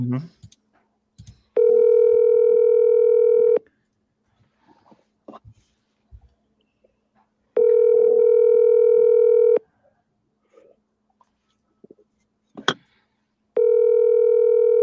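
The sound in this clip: Ringback tone of an unanswered phone call: long steady electronic tone bursts repeat at even intervals, two full rings and a third cut off at the end, with faint small noises between them.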